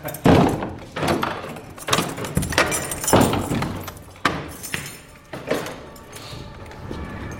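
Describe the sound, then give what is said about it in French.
A heavy door is opened at Notre-Dame cathedral at the morning opening, with many loud clunks, knocks and rattling scrapes following one another in uneven bursts. “Là, il faut que j'ouvre la porte.”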